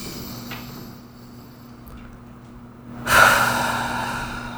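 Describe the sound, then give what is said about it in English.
A single deep breath during a tapping relaxation exercise: a quiet stretch with faint soft sounds, then one clear, fairly strong rush of breath near the end that slowly fades. “Deep breath.”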